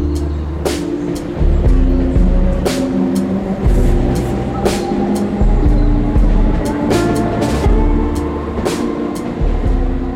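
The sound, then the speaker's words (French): Railway station ambience: a steady low rumble of trains, broken by intermittent sharp metallic clanks and clacks at irregular intervals, fairly loud with no voices. “Nous sommes ici avec vous à la gare de Saint-Cloud”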